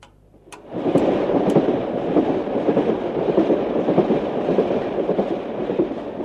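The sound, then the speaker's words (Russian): Passenger train arriving at a station: after a brief quiet start with a few sharp clicks, a heavy, steady rumble with rattling texture sets in and continues loudly to the end. “Товарищи пассажиры, наш поезд прибывает на станцию Балухина.”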